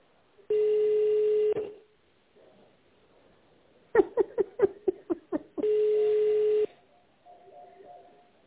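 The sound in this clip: Telephone keypad tones as a number is dialed into a company's automated phone line: a quick run of short, sharp beeps sits between two longer, steady electronic tones, all fairly loud and clear.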